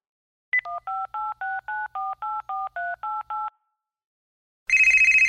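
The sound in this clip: A touch-tone telephone being dialed: a quick, evenly spaced run of many short dual-tone keypad beeps, then after a pause a loud, rapidly pulsing ring tone.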